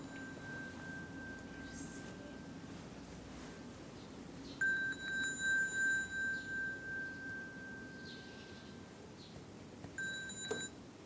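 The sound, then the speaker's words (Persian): A phone ringing with a repeating electronic beeping pattern. The tone sounds in pulsing bursts, pauses, then starts again near the end, over a low steady background hum. “اصلا تلفنتون نه جواب نمیدم. نه جواب. پس میخوای سایلنتش میکنی که صداش”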